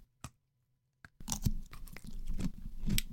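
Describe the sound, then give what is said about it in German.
Biting into and chewing slimy, gooey food: a couple of faint clicks, then a bite followed by ongoing soft, wet, squelchy chewing at low volume, with no talk. “ich beiß da jetzt rein. Scheißegal. Es ist mhm. aber echt ein bisschen glibbelig.”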